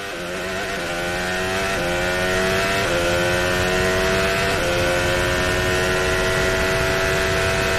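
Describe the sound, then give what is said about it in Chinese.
Two Mercedes Formula One race car engines roar loud and sustained with a high, whining tone, the pitch dipping and climbing again at a few gear changes. “还是两辆梅奔的赛车，赚到了更多的转播画面。”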